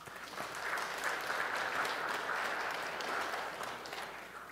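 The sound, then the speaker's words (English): Church audience applauding the youth after a service, steady, dense clapping of many hands held at an even level throughout, with no voices over it. “Can we give it up for the youth, please?”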